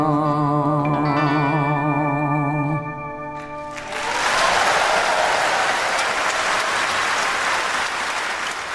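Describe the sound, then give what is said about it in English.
Audience applause bursts out after a held, wavering sung note ends, becoming a loud, dense, sustained round of clapping that carries on steadily to the end. “For the audience to react like that, just to give her a great round of applause, just to say, hey, we understand.”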